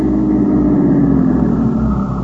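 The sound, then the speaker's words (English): A car drives up 2nd Avenue with a loud, steady low engine rumble and no voices. “And then together we drove up 2nd Avenue to Mix's funeral chapel.”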